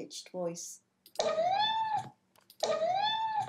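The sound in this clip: A hungry cat meows in a high voice in the morning while waiting for breakfast: two long, clear meows, each rising and then easing in pitch, after a brief softer sound.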